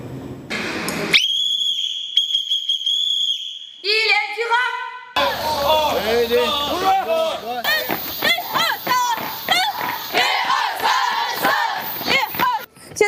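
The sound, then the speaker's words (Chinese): Students at the 11th National Student Military Training Camp, at an air force communications NCO school, shout loudly in unison while running at 4:30 a.m. Long whistle blasts come first, then a burst of rhythmic group shouting that continues to the end. “可以听到啊，他们的声音非常的洪亮，正在跑步带入。”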